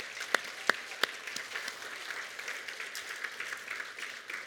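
An audience applauding to welcome two families, opening with a few sharp separate claps before settling into steady, dense clapping that carries on to the end.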